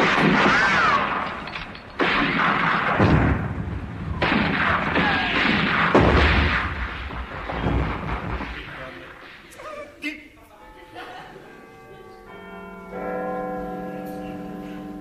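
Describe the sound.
Battle cannon fire breaks out as the battle begins. A few sharp booms come after a stretch of voices talking, followed by sustained ringing, bell-like tones.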